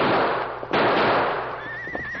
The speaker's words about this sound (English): Look, pack horse break loose.